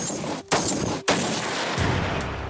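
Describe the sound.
Sniper rifle gunshots from German army sniper training: a few loud, sharp blasts, each trailing into a long rushing, rumbling decay, with no voices.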